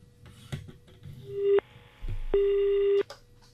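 Telephone tones from a call coming in to a radio phone-in: two steady electronic tones, the second longer and louder, with brief clicks and faint line noise before them.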